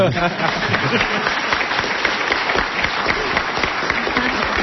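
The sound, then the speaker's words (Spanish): Applause fills the whole clip as steady, dense clapping at an even loudness, with voices mixed into the noise. “Bueno, me merezco un aplauso, ¿no?”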